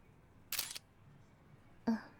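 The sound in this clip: Camera shutter fires twice, two crisp mechanical clicks separated by a pause of over a second, each short and distinct against near silence.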